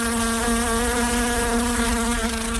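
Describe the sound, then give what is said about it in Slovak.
Flying insects buzz close to a microphone, making a loud, steady, droning hum with a clear low pitch and layered overtones that holds without pause. “Poprosil som tieto dva hmyzy, že jednička leť trošku dlhšie.”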